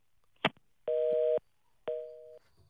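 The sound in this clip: A telephone busy tone on a call that will not connect: a short click, then two steady mid-pitched dual-tone beeps of about half a second each, separated by a brief gap.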